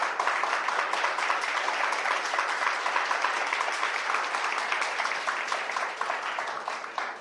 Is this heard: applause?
yes